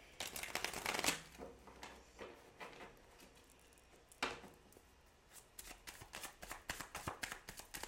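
Tarot cards are shuffled during a reading in a series of crisp riffling and slapping bursts. The bursts are loudest near the start and again midway, with softer shuffling in between.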